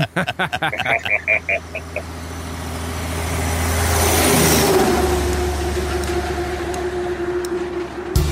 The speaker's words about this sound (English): full tanks, full DEF, man. Let's put this sucker in gear and go.